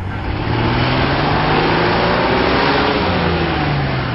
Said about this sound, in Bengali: চল গাড়ি দৌড়।